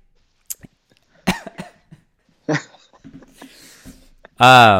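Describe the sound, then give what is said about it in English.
Choking coughs and throat catches from a man whose throat seized up: a few sharp, breathy bursts with softer throat sounds between them, ending in a loud, strained, voiced burst. “the last R there kind of made me choke up a little. Something happened to the back of my throat.”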